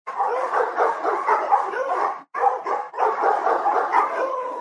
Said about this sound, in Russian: И в этот момент вечернюю тишину разорвал многоголосый лай.